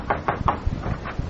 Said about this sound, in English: Somebody knock.